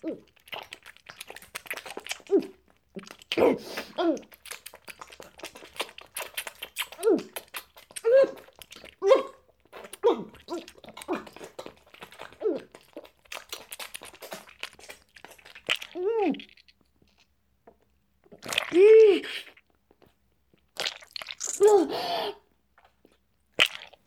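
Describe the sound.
ASMR-style chewing and crunching of food: many irregular crunchy bites and chewing sounds, some loud and some faint, with short quiet gaps between bursts.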